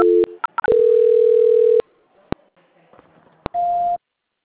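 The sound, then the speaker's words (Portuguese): Telephone call transfer signalling: a few short beeps and a long steady mid-pitched tone, a couple of sharp clicks over near silence, then a shorter, higher steady tone. “A ligação caiu, eu vou transferir a senhora, tá? Tá bom. Transferência.”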